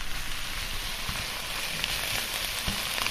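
Vegetable stir-fry with sheep polypore mushrooms sizzling in a wok: a steady, even crackling hiss with occasional faint pops, continuous throughout and without voices.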